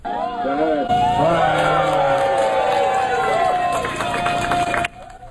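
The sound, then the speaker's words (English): A crowd cheers and whoops at the Spider-Man Way street-naming unveiling at Ingram Street and Askin Avenue in Forest Hills, Queens. Loud, sustained cheering mixes with rising whoops and babbling voices, then cuts off abruptly near the end. “Fans cheered at the unveiling of Spider-Man Way in the Forest Hills neighborhood of Queens.”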